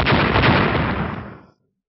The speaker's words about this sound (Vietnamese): Một tiếng nổ kinh thiên động địa vang lên.